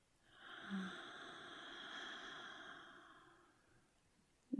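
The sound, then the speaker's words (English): A deep breath let out slowly through the mouth during a guided relaxation exercise: one soft, airy exhale lasting about three seconds, quiet and steady, with no talking over it. “try taking a deep breath with me. In through your nose. And out through your mouth.”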